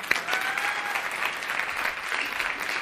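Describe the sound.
An audience gives sustained applause for a participant, many hands clapping in a dense, even stream that holds at a steady level throughout.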